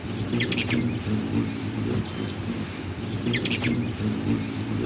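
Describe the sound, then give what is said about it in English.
Hummingbird threat calls: two bursts of rapid, high-pitched chittering, with a series of short, high chips repeating between them, over a continuous low background rumble. “Most hummingbird vocalizations are threats and include a soft chup and an excited zee-chuppity-chup.”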